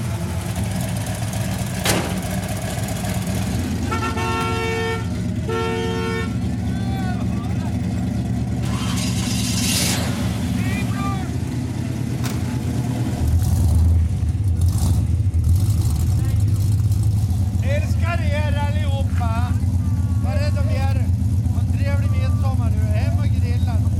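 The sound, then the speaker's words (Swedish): A Chrysler car engine runs steadily with a deep, loud, low rumble, idling and revving slightly, with two short steady horn-like tones early on and voices heard at times over it. “Det finns ingen bil som har sånt ljud som en Chrysler.”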